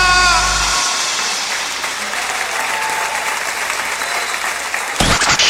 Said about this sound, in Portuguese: palmas fortes porque ele merece